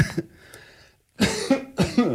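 Harsh coughing from someone with a piece of pretzel stuck in the throat: one cough, a brief silence, then a few more rough coughs in quick succession.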